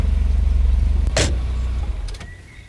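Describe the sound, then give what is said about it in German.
A car engine hums with a deep, steady rumble that gradually eases off toward the end. A brief, bright hiss cuts in midway, and a few faint clicks follow shortly before the sound fades. “Ein Auto nähert sich brummend.”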